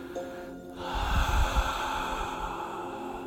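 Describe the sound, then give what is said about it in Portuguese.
A deep breath during a breathing exercise, drawn in through the nose and released in a slow, airy exhale, heard alone over soft sustained tones. “Inspira, inala por el nariz abdômen, diafragma e suelta, solta.”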